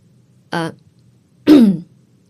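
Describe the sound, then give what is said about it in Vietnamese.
A woman clears her throat with two short, harsh, fairly loud bursts about a second apart, with silence around them and no other sound. “Thế là Cẩm Thư cũng hoảng hồn và nhận ra bản thân vừa rồi đã lơ đánh thì liền hắng giọng một cái.”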